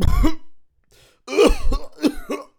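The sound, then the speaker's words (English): A man fakes a cough as a pretend illness. He makes a few voiced, throaty bursts, and the middle one is the longest and loudest. There are gaps of quiet between the bursts. “oh, oh, I have a terrible cough on me, doctor.”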